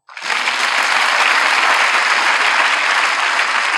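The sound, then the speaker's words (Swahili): A church audience applauding for Jesus during a sermon, with steady, dense clapping from many hands. It starts abruptly and stays loud and even for nearly four seconds. “nasema tumpigie yesu makofi haya ni makofi yako bwana umetisha sana”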